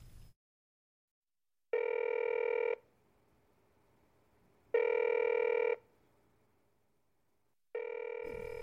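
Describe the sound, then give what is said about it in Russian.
A telephone rings three times, each ring a bright, buzzing tone lasting about a second, separated by even pauses of quiet, with the third ring cut off. The ringing is fairly faint and no voices are heard. “Мион позвонила Янсон.”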